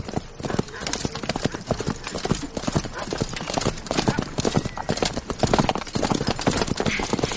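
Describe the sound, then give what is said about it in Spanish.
Horse hooves clip-clop as a princess rides up on horseback alongside another man, a brisk, steady run of many hoofbeats that continues throughout. “Al poco llega la princesa de Éboli a caballo con otro hombre.”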